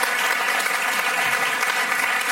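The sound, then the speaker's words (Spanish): Audience applause in a theatre celebrating a national theatre award: a dense, steady wash of many hands clapping at even loudness throughout, with no talk over it. “Vamos a darle un aplauso a Teatro del Barrio.”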